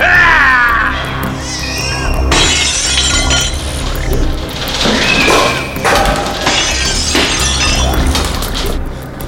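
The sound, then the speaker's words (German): In a radio drama vampire battle, a wall breaks apart with loud, repeated crashing bursts and glassy shattering debris over a continuous rumbling bed of destruction. “Die Wand zerbricht!”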